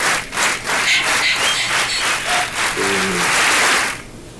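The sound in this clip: Sustained applause from a crowd, dense steady clapping that holds at an even loudness for about four seconds and then drops off sharply near the end.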